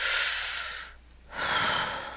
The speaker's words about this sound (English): Yes, that's me breathing, because I just got done shredding a tremendous stack of papers that have been sitting on my desk.